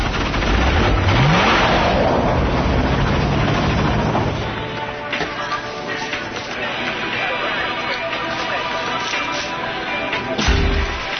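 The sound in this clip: A car engine revs as the vehicle drives off, with a rising low engine note early on. A lower, steady rumble follows, mixed with other sounds.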